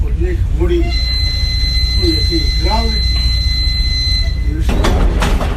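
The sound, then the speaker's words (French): Narrow-gauge passenger train on a single-track line opened in 1895, a steady loud rumble carrying thin high whining tones, with faint voices and a brief burst of rattling near the end. “C'est un train unique, le seul train de voyageurs à circuler sur une voie étroite.”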